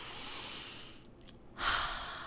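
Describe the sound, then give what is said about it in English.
A deep, audible breath from someone pausing to slow down: airy, breathy rushes with a brief quieter lull between them, and no words spoken. “Okay, I'm gonna breathe.”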